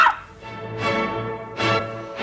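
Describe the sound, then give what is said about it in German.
A woman imitates a dog's bark, giving a few short, throaty, voiced woof sounds spaced apart, loud and alone without other talk. “Bellen Sie doch einmal.”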